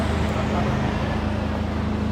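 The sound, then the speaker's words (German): A bus on a street gives off steady, loud engine and road noise, a dense roar with a low humming drone that stays even throughout. “Kommt ein Bus.”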